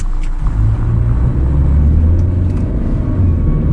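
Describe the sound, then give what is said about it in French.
A pickup truck drives along a rural Korean village road after collecting farm workers from the edge of a field. Its engine gives a steady, loud, low rumble throughout, with no voices. “Un pick-up est venu récupérer des Vietnamiens au bord d'un champ. Alors on va le suivre jusqu'à sa destination, chez le verger de Madame Wan”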